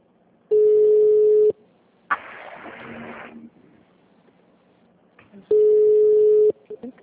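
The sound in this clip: A ringback tone on a group phone call being set up plays two steady, loud, mid-pitched beeps of about one second each, a few seconds apart, with brief noise and a voice between them.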